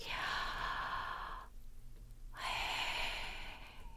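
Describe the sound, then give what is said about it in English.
A person breathes in and out through an open mouth, shaping the word Yahweh: a breathy inhale on "Yah" and an exhale on "Way". Two long, airy breaths are separated by a short, quiet pause. “the first way is you're literally breathing in and out the word Yahweh. So it will sound like this.”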